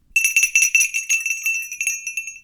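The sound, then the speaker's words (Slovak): A small hand bell, taken from a manor house as a keepsake, rings with a bright, high-pitched tone. Many quick strikes follow one another rapidly, and the ringing gradually thins out toward the end. “Zvonec som vzal z kaštieľa na pamiatku. A potom, veď vieš, že nakoniec rozprávky patrí zvonec.”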